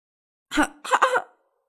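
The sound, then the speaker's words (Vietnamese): Coughing from a woman whose throat is gripped tightly by a hand: a short, harsh cough followed by a longer, broken double cough, loud and alone against silence. “Kim Vân ho khan, bị thiếu niên lạnh lùng bóp chặt lấy cổ khiến cho nàng cảm thấy rất khó chịu nên không ngừng ho sặc sụa”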